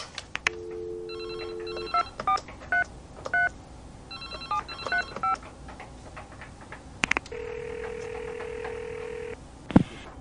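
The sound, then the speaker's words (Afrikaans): A telephone call is dialed with many quick touch-tone beeps in two bursts, followed by a long, steady ringing tone, then a brief sharp beep near the end. “hierdie ding moet ek share en dadelik vir Ryan bel.”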